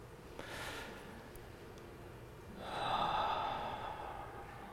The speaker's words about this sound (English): Could you just take a deep breath with me?